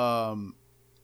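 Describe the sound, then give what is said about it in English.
A single low, croaky voiced burp lasts about half a second and then falls away into quiet. It is faint and heard alone. “I burped.”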